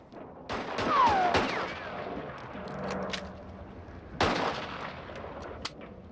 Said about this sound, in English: rising to his feet and firing with his gun held in both hands, shoots the man in the shoulder